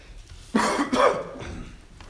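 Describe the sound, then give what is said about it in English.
Coughing and throat clearing from someone who has been coughing for a week and whose voice is strained. Two short, hoarse bursts come close together, loud against a quiet background, then the sound fades out. “pardon me, I've been coughing and clearing my throat for a good part of this week”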